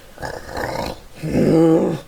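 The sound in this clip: A person imitates a dog with their voice, producing two gruff, growling bark-like bursts, the second louder and longer than the first.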